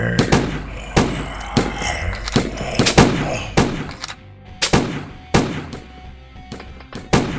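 Many gunshots fired at an attacker who keeps coming. Sharp, loud bangs land in an irregular rhythm, some in quick pairs, across the whole clip.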